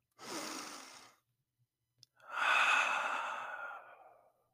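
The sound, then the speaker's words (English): Deep breathing at the start of a seated meditation, before a mantra chant: a breathy rush of about one second, a short pause, then a longer, louder airy breath that fades out over about two seconds. “We're going to take a deep breath.”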